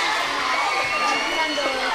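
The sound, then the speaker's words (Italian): Crowd cheering and applause at the close of a school concert: a continuous, fairly loud wash of mixed voices and noise that holds level for the whole short stretch. “Allora un altro applauso grande”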